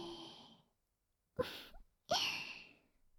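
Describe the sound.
Breathy exhalations during a guided deep-breathing relaxation: a soft out-breath fades at the start, then two short, airy, sigh-like bursts follow after a pause, quiet and alone with no talking.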